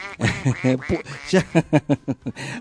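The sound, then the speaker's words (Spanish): A person imitates a duck with the voice, making nasal, harmonic quacking sounds that turn into a rapid run of short, evenly spaced quacks toward the end, loud and with no other sound. “Escuche el pato. Es que soy un pato.”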